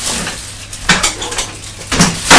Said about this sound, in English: I'll cut it off, put it in a pot with a lid.